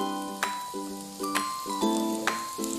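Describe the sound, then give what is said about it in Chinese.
Food sizzles steadily as it is stir-fried in a pan over slightly raised heat, with a few sharp clacks from the stirring cutting through the continuous hiss. “继续翻炒，这个时候火稍微大一点。”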